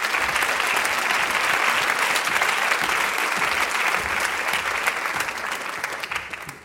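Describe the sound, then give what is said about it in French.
An audience applauds to welcome a guest: sustained, dense clapping from a crowd holds steady and loud, then thins and fades toward the end. “Clotilde Courreau que nous vous demandons d'accueillir sous un tonnerre d'applaudissements”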